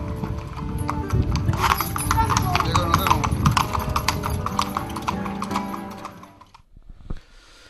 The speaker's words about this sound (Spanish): que sus patas con pezuñas cortas y limadas reciban las nuevas herraduras para laborar dignamente y deleitarnos de un sonoro y elegante galope